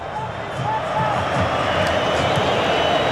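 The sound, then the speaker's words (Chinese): Argentina football fans roar and shout in a stadium during a match against England, a sustained crowd din with a voice talking over it. “每一次大脚的解围都会赢得球迷的这种掌声和呐喊啊！ 这是阿根廷球迷的呐喊”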